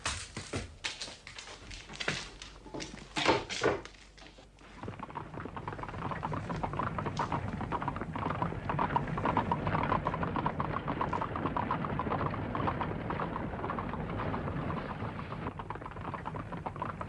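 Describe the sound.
Horse-drawn carriage with its door and hooves: a few sharp knocks and taps, like a door and someone boarding, give way after about four seconds to a steady, loud rolling rumble that runs to the end.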